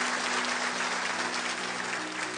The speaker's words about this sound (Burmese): ဟာလေလုယာအာမင်လက်ကိုတီးလက်ဖျားကိုချီးမွမ်းရအာမင်။